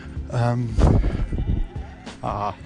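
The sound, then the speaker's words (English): Sheep and lambs bleating in the Western Norway countryside: two wavering, nasal bleats, one early and one near the end, with a person talking between them. “a few lambs included, and can you hear them? No? They stopped, didn't they?”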